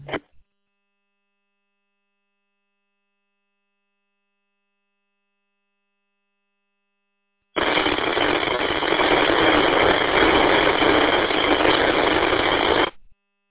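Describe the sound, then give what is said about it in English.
Radio static on a monitored transmission: a short blip at the start, then silence, then a steady, harsh, band-limited hiss lasting about five seconds that cuts off abruptly. “Nothing but static on that last transmission.”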